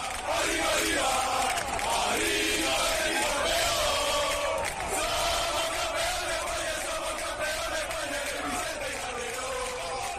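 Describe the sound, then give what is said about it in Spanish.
Green-and-white Real Betis supporters in Seville send off Pellegrini's team before a semifinal against Rayo with a dense, sustained roar of cheering and yelling that stays loud and even from start to finish. “Escuchen cómo la afición verde y blanca ha despedido de Sevilla al equipo de Pellegrini.”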